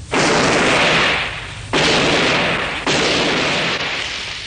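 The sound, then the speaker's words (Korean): Old-fashioned gunshots fired in succession: three loud, broad booms, each followed by a long, slowly fading noisy tail before the next one, with no talk. “저건 구식 총소리인데요?”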